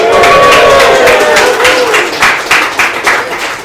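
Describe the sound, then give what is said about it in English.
Cheering and clapping from a live audience at a coffee bar in Olympic Village during live coverage of the Western States race, loud and dense, with a steady wash of clapping and raised voices that gradually thins toward the end. “For the audience online, we do got a nice live audience here. Let's make some noise and let the people online know who's here.”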